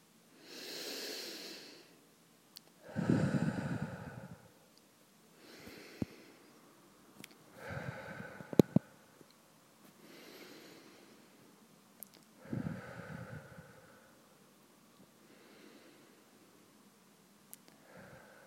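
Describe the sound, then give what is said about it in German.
Slow breathing during a shared guided meditation: many soft, spaced in-and-out breaths with occasional sniffs, otherwise quiet. “uns eine Minute lang so gemeinsam atmen. Und damit in einen näheren Kontakt mit der Gegenwart zu kommen, denn der Atem ist immer nur im Jetzt”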